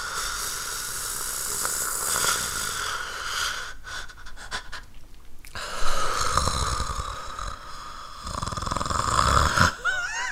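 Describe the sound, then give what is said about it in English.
Loud, deep ujjayi breathing: several long, rasping breaths drawn through a constricted throat, with a hissing, snore-like texture and no talk. “You were doing some ujjayi breath, I think.”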